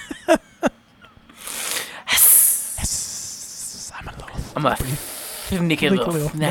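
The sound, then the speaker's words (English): A voice imitates a snake's hiss: one sharp, breathy hiss bursts out between a few clicks and spoken words, and people talk around it. “Hissing like a snake.”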